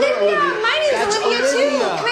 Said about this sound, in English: Oh, all the kids screaming in the background